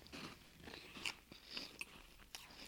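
Faint biting and chewing of creamy food, soft wet mastication broken by a few sharp crunchy bites, heard alone without talk.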